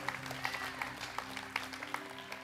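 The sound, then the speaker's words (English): Congregation at a church service clapping for the worship team, a fairly faint round of scattered individual claps in an irregular rhythm over a low steady hum. “Yes, give the worship team a big clap.”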